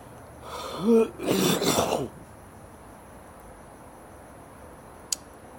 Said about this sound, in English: I don't know, but coughing just then cleared something up.